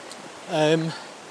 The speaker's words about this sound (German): So, jetzt bin ich hier an der Senf unterwegs. Der Fluss oder Bach, der dann runterfließt auf Schwanden durch das sogenannte Senftal.